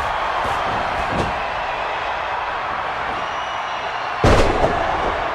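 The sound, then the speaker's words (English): A wrestler is slammed onto the ring mat by a back body drop: one heavy, booming thud bursts out near the end over a steady roar of crowd noise. “Devon now sends Pillman off the ropes and hits him with a huge back body drop”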